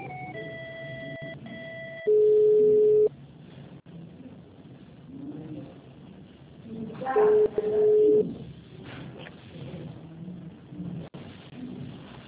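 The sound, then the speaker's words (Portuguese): Telephone line tones while a call is placed: a few brief higher tones at the start, then two steady mid-pitched ringing beeps of about a second each, separated by a long pause, over faint background hiss. “Eu tô ligando lá para ver como é que é.”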